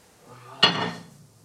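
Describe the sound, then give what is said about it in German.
A single sharp clatter sounds as spätzle are put into a warm baking dish that has been standing in the oven. One abrupt hit is followed by a brief ringing decay over soft background noise. “Meine Spätzle sehen gut aus, die tue ich jetzt in die Form, in die warme, die im Ofen gestanden ist.”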